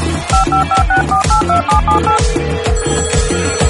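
Rapid telephone keypad tones dial the number 162 as a quick run of short, bright beeps, then give way to a steady ringing tone, all over a repeating low rhythmic thumping.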